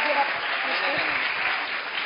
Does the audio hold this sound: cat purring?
no